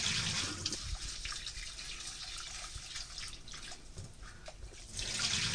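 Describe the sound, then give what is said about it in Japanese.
Rice being gently rinsed by hand in water before cooking seasoned rice, giving a steady wash of splashing, sloshing water with small drips scattered through it, fairly faint and continuous, with no talk. “そしたら 2、3 回お米を優しく洗うように研いでいきます。”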